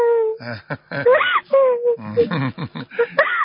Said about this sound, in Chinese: 好了好了，不要哭了啊，不要哭了